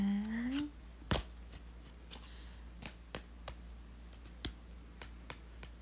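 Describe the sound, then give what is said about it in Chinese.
Playing cards tapped and knocked together by a child on a parents' bedside cabinet: light, dry clicks in an irregular series, mostly faint with a few sharper taps, after a brief voice at the start. “把卡片敲来敲去的，喜欢那个声音啊。”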